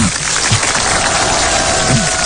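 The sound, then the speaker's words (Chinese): Applause breaks out at a dinner gathering with drinks, a dense, even crackle of many clapping hands that stays loud and constant throughout. “我想咱们掌声有请李丁”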